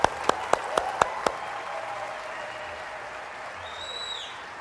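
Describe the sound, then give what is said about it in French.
Loud audience applause at a morning sermon, a few sharp separate claps at the start giving way to a steady wash of clapping that carries on to the end, with a faint whistling tone near the close. “On va ensemble applaudir fort et saluer nos amis en Côte d'Ivoire qui vont entendre ce message.”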